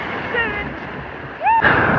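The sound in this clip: Someone wading into the sea at the Posto 12 beach: rushing surf and splashing water, loud wind buffeting the microphone, and a sharp surge of splashing near the end, with brief voices.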